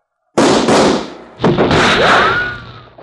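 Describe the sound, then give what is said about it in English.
Revolver gunshots ring out in a 1949 western gunfight: a couple of loud, sharp bangs, each trailing into a long ringing decay, with no voices during the shots. “And that makes six. All right, Cleaver, your gun's empty, I reckon”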